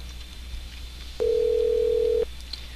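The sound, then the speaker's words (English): A single steady electronic telephone tone sounds for about one second, then cuts off, alone over a faint background hiss. “See if this does phantom ringing again. It seems like it is.”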